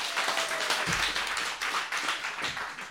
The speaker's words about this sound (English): The audience making themselves heard, that's very nice.